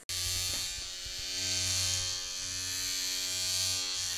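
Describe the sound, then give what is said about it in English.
Electric razor shaving, a steady buzzing drone rich in humming overtones that runs unbroken and evenly loud throughout. “Are you shaving? On the podcast.”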